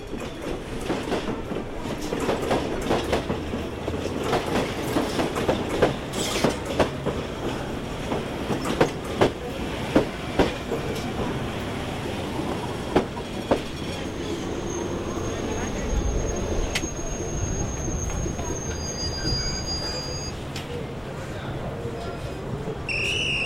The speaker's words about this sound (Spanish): Ahí viene el tren.